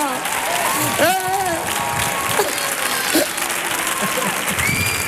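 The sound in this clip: Applause from a standing audience at a concert at Auditorio Cartuja: dense, steady clapping fills the whole stretch, with whistles and cheers cutting through and voices heard over it.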